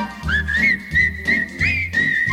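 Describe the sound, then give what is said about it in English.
People whistle a bright, sustained tune with short swooping slides between notes, loud and clear over a low, steady backing, in a few phrases separated by brief dips. “What do you see in Omaha that you never see in other cities? You see whistling people.”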